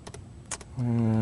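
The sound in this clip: A few quick keystrokes sound on a computer keyboard as code is typed. They are soft, separate clicks, and a steady voice starts up after them.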